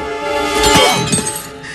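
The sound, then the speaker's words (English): A sword blade snaps on impact as it is driven into an opponent's back during a fight, producing a single loud, shattering metallic crack that bursts out of a dense, continuous wash of background sound. “The blade snaps on impact.”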